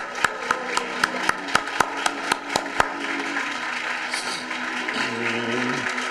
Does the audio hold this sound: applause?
yes